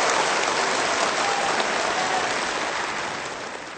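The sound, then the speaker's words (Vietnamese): Applause for performers at a book launch event, a dense, even wash of clapping from an audience that holds steady and then slowly fades toward the end, with no voices standing out. “Xin hãy dành một tràng pháo tay nữa cho nghệ sĩ Vân Anh và các nhạc công tài năng.”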